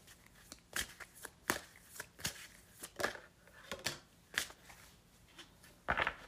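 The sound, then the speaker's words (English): Chakra Wisdom Oracle cards are shuffled in many quiet, papery riffles and soft slaps in an uneven rhythm, with a louder burst near the end. “is pull, I don't know how many cards, but some cards from the Chakra Wisdom Oracle cards.”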